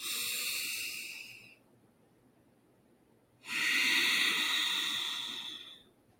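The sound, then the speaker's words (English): Slow, deep breathing during a breathing exercise, two long airy hisses separated by a quiet pause, each swelling and then tapering off. “So I'm going to do it without counting so you can get a sense of what it looks like. And we inhale.”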